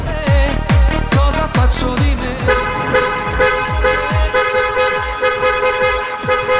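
Car horn tooting in a rapid series of loud, blaring honks, then holding a more sustained, steady honking tone through the second half.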